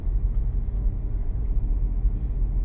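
Low, steady rumble of a car driving along a road, continuous road and engine noise holding fairly even throughout with small surges, no voices.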